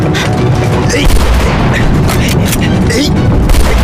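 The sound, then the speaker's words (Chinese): Gunfire on a wartime battlefield, a soldier firing his rifle wastefully, comes as a dense, loud barrage of sharp cracks and booms that blur into a continuous rumbling roar with no clear gaps. “没有你这么打枪的，你这是浪费子弹，知道吗？”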